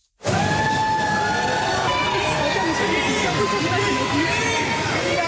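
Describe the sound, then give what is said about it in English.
A crowd of fans cheering and calling out outside Celine Dion's hotel in Paris, a loud, steady wall of excited voices and shouts that starts abruptly and holds for several seconds. “Celine Dion receives a warm welcome from fans outside her hotel.”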